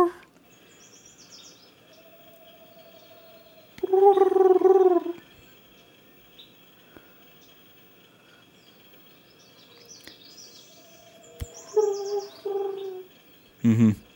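An eastern screech owl call played back as a recording: two loud stretches of wavering, trilling hoots, plus a short final burst, standing out against a faint steady background.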